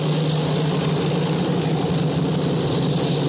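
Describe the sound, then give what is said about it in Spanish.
A column of WWII armored vehicles drives out of a village with a steady, heavy engine rumble and a low droning hum that holds unchanged throughout. “la columna de blindados sale del pueblo. Se distribuyen a lo largo de la costa donde ya hay instaladas baterías antiaéreas.”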